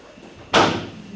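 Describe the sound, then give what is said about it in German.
A door is pushed shut with one sharp, solid thud, followed by a short fading tail. “machen Sie bitte die Tür zu”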